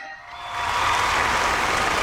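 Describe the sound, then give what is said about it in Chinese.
A crowd applauds a traditional opera singer after an aria. After a brief quieter moment the clapping swells into a dense, even wash that holds steady, with no voices over it. “这里也把掌声送给这位周老师”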